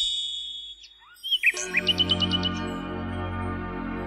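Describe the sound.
A nightingale sings a quick series of bright, high chirps in rapid succession, heard over a sustained low tone.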